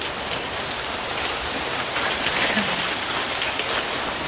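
Rain falls as a steady, dense hiss of drops that stays even in loudness throughout, with no voices.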